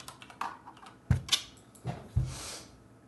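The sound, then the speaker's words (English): Typing a search on a computer keyboard: a few faint, irregular key clicks and taps, quiet and spaced apart, with no talking. “Here we go. Type in Stephon Diggs contract.”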